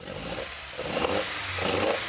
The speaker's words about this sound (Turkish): İşte Lancia V4'ün sesi budur.